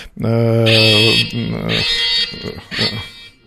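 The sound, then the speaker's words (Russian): An alarm goes off in a studio, sounding as loud, steady electronic buzzing tones that cut in and out in several bursts, with voices over it. “Всем спокойно, называется, да. Мы сидим на месте, а это сигнализация, которую я, конечно, выключаю.”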